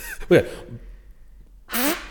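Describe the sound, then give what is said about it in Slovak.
A beginner's lips buzz into a brass instrument mouthpiece, giving one short, raspy, fart-like buzz near the end after a brief stretch of speech. “Ale musíš trošku zabzučať, ako keby. Musíš prdeť perami.”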